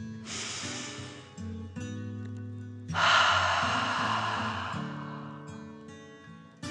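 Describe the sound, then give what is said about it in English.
A deep breath in, then a fuller, louder breath out, taken slowly during a calming guided meditation for children, with soft tones sustained beneath the breathing. “Feel the warmth and take another deep dragon breath in and out.”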